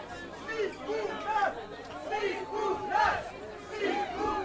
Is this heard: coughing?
no